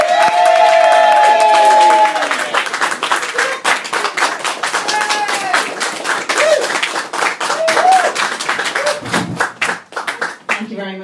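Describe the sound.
An audience applauds and cheers to welcome a stand-up comedian, with dense, loud clapping and early whistles that thin out toward the end.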